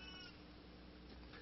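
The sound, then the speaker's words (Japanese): A cat meowing faintly in the background, a soft, drawn-out cry that holds steady through the moment with no talk over it. “あ、後ろに猫が鳴いてますね。”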